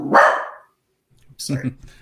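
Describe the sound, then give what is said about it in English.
A puppy barks in two short, sharp bursts separated by a clear pause. “Sorry. he really doesn't like May. My puppy hates May.”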